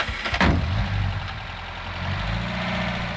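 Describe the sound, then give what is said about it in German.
Low engine rumble of a three-ton truck pulling away slowly at night down a dirt track, leading two Land Rovers. A short knock near the start, then a steady, moderate drone with no voices. “Der Dreitonner und dahinter die beiden Land Rover fahren langsam, ohne Lichter, den Feldweg zur Straße hinunter.”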